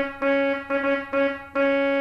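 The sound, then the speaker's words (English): A pipe organ's trumpet reed stop sounds a bright, brassy, harmonically rich tone. It is played as a few short repeated notes at one steady pitch, each starting sharply, with no talk. “played a trumpet to you, which sounds like this.”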